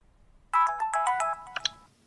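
A phone ringtone sounds for an incoming call: a bright, tonal electronic melody of several quick notes that runs for a little over a second and then stops.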